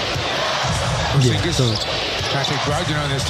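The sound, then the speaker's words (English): Basketball game against Washington as a player leaps and Jordan Goodwin misses a shot: a ball bounces a few times under steady talk and faint crowd noise. “I just want to play this clip where you won't see it, but you will know that Cornette takes the leap and Jordan Goodwin is not able to make the shot.”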